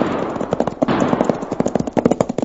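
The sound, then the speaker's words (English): Gunfire in a gun battle: many sharp shots crack in rapid, overlapping bursts, loud and nearly continuous for the whole stretch, with no talking. “Sounds like a regular gun battle.”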